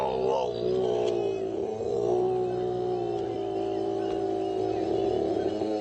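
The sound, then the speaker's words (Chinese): A male koala bellows at night, a deep, rasping drone with steady layered harmonics that holds at even loudness for the whole stretch without a break. “雄性树袋熊是没有育儿袋的。布鲁斯会在晚上发出这样的吼叫”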